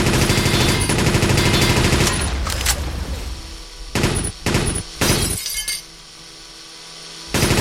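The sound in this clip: Rapid machine gun fire in a video game, a continuous loud barrage for about two seconds that then tails off, followed by a few short, sharp bursts.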